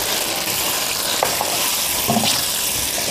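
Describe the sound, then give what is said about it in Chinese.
Loud, continuous sizzling from a stir-fry as soy sauce, oyster sauce, sugar and chicken bouillon are tossed in, a dense hiss with a few faint stirring scrapes and no talking. “少量的生抽，少量的蚝油，翻炒一下，再加入少量的糖以及鸡精。”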